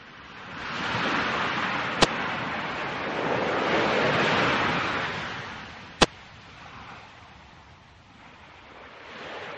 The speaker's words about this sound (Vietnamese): Biển liền dâng sóng, để lộ một con đường dẫn xuống biển.